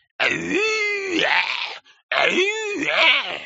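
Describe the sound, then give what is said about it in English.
A person imitates a Bigfoot call: two long, loud howling wails with wavering pitch, separated by a brief pause. “Probably didn't help none that I kept making my world-famous Bigfoot calls vis-a-vis,”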